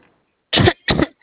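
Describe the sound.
Two dry coughs from someone clearing a parched throat, short harsh bursts in quick succession, alone with silence around them.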